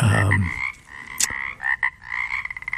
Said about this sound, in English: the Pacific chorus frog is the one which is most widely recognized and most evenly distributed over the state